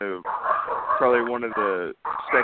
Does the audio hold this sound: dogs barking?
yes

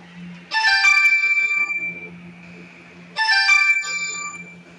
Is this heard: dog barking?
no

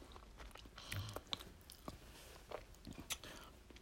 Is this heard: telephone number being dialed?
no

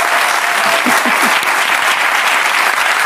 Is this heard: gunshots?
no

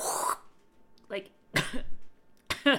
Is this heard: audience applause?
no

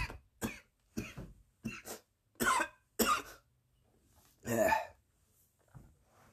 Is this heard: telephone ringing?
no

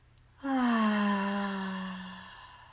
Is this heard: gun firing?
no

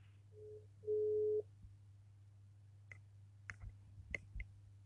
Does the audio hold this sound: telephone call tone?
yes

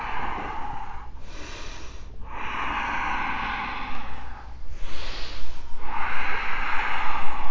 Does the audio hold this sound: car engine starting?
no

